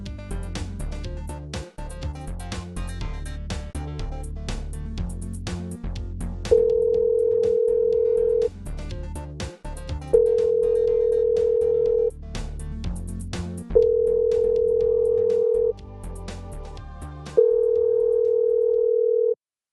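A telephone tone, from a call that goes unanswered, sounds four times in long, steady, even bursts with short gaps between. It follows a stretch of busy, clattering musical noise.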